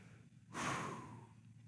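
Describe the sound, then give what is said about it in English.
A single audible breath from people told to breathe together: one airy rush that starts sharply, lasts under a second and trails off, faint overall and with no talk around it. “Everybody take a breath.”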